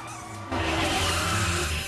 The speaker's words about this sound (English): Diane swerves to avoid him, and another car skids across the road, breaking within inches of Shaft's body.